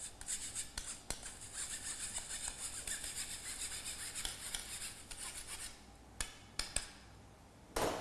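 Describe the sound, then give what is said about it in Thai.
Steady rasping scrape as flour is worked against a bowl to smooth it, a continuous gritty rubbing broken by a few sharp clicks near the end, with no voices. “เราก็จะเอานะครับหาอะไรมานะครับขูดมันลงไปนะครับให้แป้งเป็นเนื้อเดียวกันนะครับละเอียดนะครับ”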